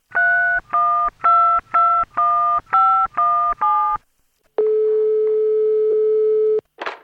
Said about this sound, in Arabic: وبدون أي تردد اتصل به على الفور.